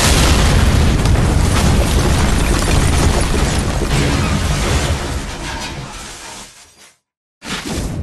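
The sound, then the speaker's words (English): A bomb exploding in a video game: a huge, booming blast with a rumbling, crackling roar that slowly fades over several seconds, then a short silence before loud noise resumes. “What's that noise? The bomb has almost reached the final terminus! This does not sound good.”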